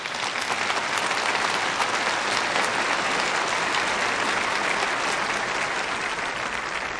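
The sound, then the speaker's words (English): Audience applause welcoming a speaker at a Reformed Church in America gathering: a dense, steady wash of clapping lasting about seven seconds without pause, with no talking over it. “Would you give a warm welcome to my friend, Tom DeVries?”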